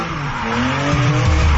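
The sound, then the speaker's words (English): Race cars at a NASCAR Canada event on a stadium road circuit, with loud, sustained tire squeal and skidding over engine roar. The tone slides lower in the second half. “NASCAR Canada takes over Calabogie Motorsports Park July 18th and 19th. Experience wall-to-wall racing, high-speed action, and non-stop excitement on their stadium circuit.”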